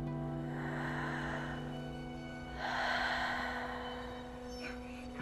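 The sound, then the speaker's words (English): A voice imitates slow breathing: two long, soft, airy breaths drawn out over several seconds, with a steady low hum beneath and no words. “every night they would see how slow they could breathe, see who could be slower”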